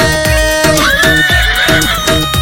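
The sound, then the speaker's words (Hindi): A horse whinnies over steady, rhythmic clip-clop hoof beats, set within a devotional folk song about a horse rider. Sustained musical tones run underneath, and the loud neigh bends upward in pitch partway through. “घोड़े असवार बाबो आवे रे”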